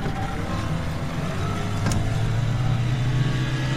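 A boat engine drones with a steady low rumble that swells slightly in loudness midway and then holds.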